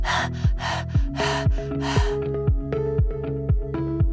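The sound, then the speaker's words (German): A human voice imitating a dog panting in summer heat as a breathing exercise: quick, rhythmic, breathy huffs over a steady beat of low thumping music. “Lass uns üben. Lass uns hecheln wie ein Hund im Sommer.”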